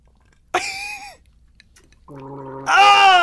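Someone gargles a flat, stale-tasting drink, giving a short bubbling burst and then a longer, louder throaty gurgle with a voiced tone.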